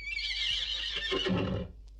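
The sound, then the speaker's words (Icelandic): A lonely horse, the last one left, neighs in a single loud, high whinny that trails into lower, shuddering tones before stopping, over a steady low hum. “eini hesturinn sem er eftir, er einmana. Hann hnekkjaði í alla nótt á fallna félaga sína.”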